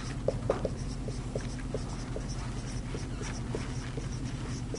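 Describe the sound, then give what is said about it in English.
A word is written out by hand in many quick, faint, scratchy strokes with an uneven rhythm over a low, steady background hum. “So let's write that out.”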